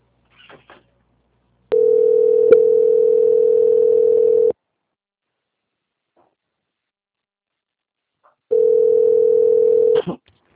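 Telephone line tones sound while a bank call is transferred. Two bursts of the same steady, mid-pitched tone are heard, the first about three seconds long and the second about one and a half, separated by silence and faint clicks.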